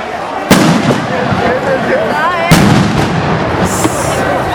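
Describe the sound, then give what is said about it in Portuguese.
Tear gas bombs bursting during a street protest: two loud, sharp blasts about two seconds apart over a constant rough background of crowd noise and voices. “Muita bomba. Muito gás lacrimogêneo, mais uma bomba de gás lacrimogêneo.”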